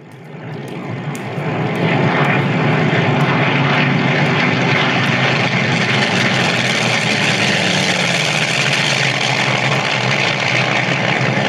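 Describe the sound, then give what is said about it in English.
Propeller airplanes, Navy aircraft, fly close overhead. The loud engine drone swells over the first two seconds, then holds steady and heavy to the end, with no voices. “Sounds like those Navy boys are getting an early start on us today. They sound close. I don't remember them flying this close before.”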